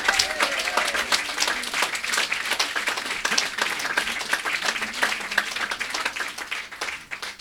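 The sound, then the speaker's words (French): Audience applause at a blues concert: dense, sustained clapping from a crowd that fills the whole stretch at an even, lively level, with no talk over it. “et on l'applaudit.”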